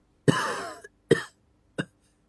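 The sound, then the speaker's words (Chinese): Coughing after choking on a mouthful of cigarette smoke: three harsh, loud bursts, the first long and rasping, the next two short, with no talk. “一口烟卡在喉咙，差点呛着，忍不住咳嗽两声。”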